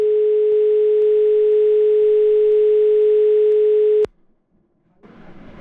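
Telephone dial tone after a dropped call, a loud, steady single-pitch hum that cuts off abruptly, followed by near silence and then low noise.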